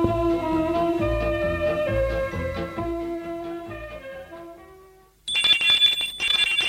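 A doorbell rings at a parents' house: a bright, high-pitched electric ringing in two bursts. It cuts in abruptly after a stretch of repeating tonal notes fades away.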